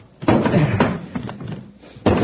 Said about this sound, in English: I'll see if I can smash the door.